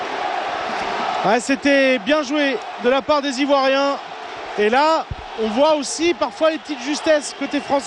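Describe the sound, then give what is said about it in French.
A packed section of Ivory Coast football supporters fills the Stade de la Beaujoire during a France versus Ivory Coast match, their steady crowd roar running beneath loud French commentary. “Et là, le bruit que vous entendez, c'est le parquage ivoirien qui est plein comme un œuf.”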